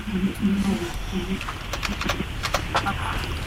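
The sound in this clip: Clicky keystrokes on a computer keyboard as a name is typed in, a few irregular taps in the second half, following a low murmuring voice at the start.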